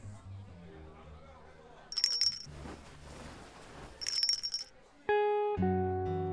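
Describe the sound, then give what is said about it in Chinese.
A small bell worn on the hand jingles in two short, bright bursts about two seconds apart, each a quick cluster of high metallic rattles. “这个铃铛好眼熟啊，我记得这个是我上学时戴的”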